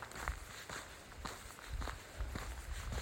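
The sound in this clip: Footsteps of a person walking outside, a steady run of soft thuds and scuffs at an even walking pace, continuing throughout without a break.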